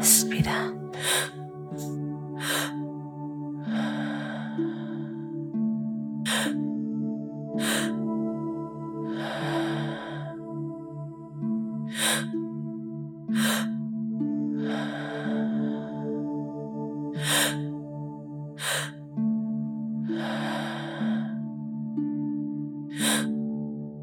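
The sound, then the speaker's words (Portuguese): Slow, deep breathing in and out during a breathwork meditation. A few long, soft breaths recur over calm sustained music with regular struck chime-like notes. “Inspirando, inspirando e expirando.”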